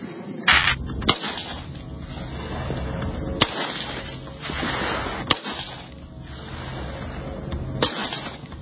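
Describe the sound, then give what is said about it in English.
Sharp shots from an M4 rifle, an AR-15 equivalent, fired a few times at irregular intervals, each a brief crack standing out over a steady background hiss. “It's one of my favorite guns. The AR-15 or its equivalent. Some equivalent here. Yep, M4. Yep. All right, buddy, we'll let her rip.”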